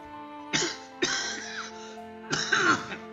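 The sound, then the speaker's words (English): An elderly man clears his throat with a strained, rasping effort: three rough, voiced bursts, the last one longest, in an otherwise quiet setting. “clears his throat, the strained rasp making it clear that this is an arduous task”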